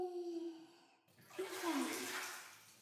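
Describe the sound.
Hot water pours over a body in a bath, a loud rushing gush of water that begins partway through and carries on to the end.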